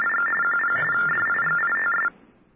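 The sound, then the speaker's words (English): Touch-tone telephone dialing: a loud, rapid run of short DTMF beeps for about two seconds, then a sudden drop to faint line hiss. “so I dial 1212”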